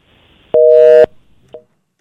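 Telephone busy tone after a dropped call on a phone line: one loud, steady electronic beep lasting about half a second, followed by a brief, fainter blip of the same tone, with near silence around them.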